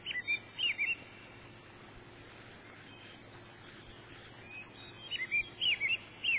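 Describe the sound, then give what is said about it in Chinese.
Babbling water with birds calling: a soft, steady rushing wash underneath, with a few quick high chirps near the start and a cluster of bird calls toward the end. “四周也传来了潺潺的流水与虫鸣鸟叫的声音，好清新，好满足，好放松啊。”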